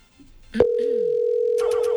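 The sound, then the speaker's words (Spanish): Telephone line tone on an unanswered call: a steady, loud, single-pitched electronic tone that starts abruptly and holds unbroken for well over a second, with a few short clicks near the end. “Este es el servicio de contestador para 3, 2, 2, 6, 2. Bueno, Daniela, no contesta. Daniela, porfa, contesta.”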